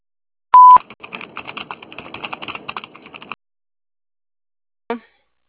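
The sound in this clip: A single short electronic beep from a voicemail system marks the start of message recording. Several seconds of quick, irregular clicking and tapping follow, then a brief final click burst after a pause.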